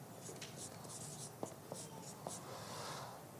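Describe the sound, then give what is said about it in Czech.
A word crossed out and rewritten by hand, heard as faint scratchy pen strokes with a few sharper taps, quiet and alone. “Respektive možná to škrtnu, napíšu vztah.”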